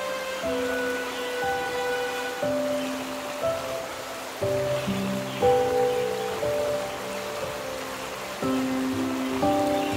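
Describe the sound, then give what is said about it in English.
A flowing stream in a fairy-tale setting, its steady watery rush running beneath a gentle melody of soft tonal notes that play over it throughout. “Geirlaug, and the moment he heard the sound of a stream, he ran towards it.”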